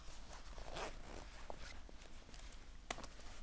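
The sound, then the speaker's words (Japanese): Front zipper of a sailor-style school uniform being opened: faint, soft scratchy rasps with a few brief louder zips and a sharper click near the end, very quiet throughout. “じゃあちょっと前がファスナー開きなので、せっかくなので前を開けてみましょうか。”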